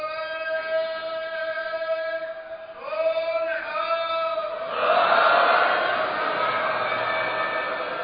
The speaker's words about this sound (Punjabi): ਇਹ ਬੜੇ ਸੋਹਣੇ ਮੌਕੇ 'ਤੇ ਜੈਕਾਰਾ ਬੁਲਾਇਆ ਗਿਆ